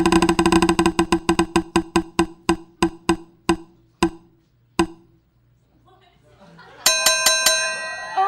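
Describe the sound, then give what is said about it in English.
A prize wheel spins with bright, rapid ticking clicks that slow steadily and spread farther apart until the wheel stops. A short quiet follows, then voices break in at the end. “All right. Let's spin it again.”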